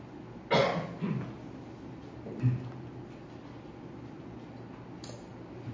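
A throat cough from someone reading scripture aloud during a sermon: one sharp, loud burst followed by a couple of fainter throaty bumps, with no speech around it.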